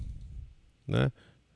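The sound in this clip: A single short mouse click on a Windows computer, a right-click on the My Computer icon, crisp and brief after a stretch of quieter speech.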